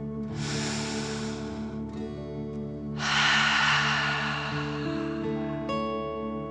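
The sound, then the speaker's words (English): A deep breath is drawn in and let out: two long, airy, hissing breaths, the second one louder and fuller, over a soft sustained tone. “Deep breath in and out.”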